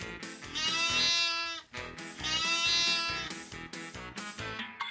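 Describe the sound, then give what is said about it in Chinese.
Sheep bleating: two long, wavering, nasal calls, then several shorter bleats in quick succession. The calls are fairly loud and heard alone. “我最喜欢吃草跟晒太阳了，聪明的小朋友，猜对了吗？我就是绵羊。”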